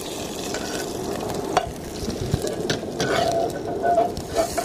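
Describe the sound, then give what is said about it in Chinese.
Garlic, ginger slices and sugar stir-frying in a pan as the sugar begins to colour, giving a steady, even sizzle broken by occasional sharp clicks and scrapes of the utensil. “蒜头，这个时候可以放糖。糖下去有什么作用呢？可以给它上色。”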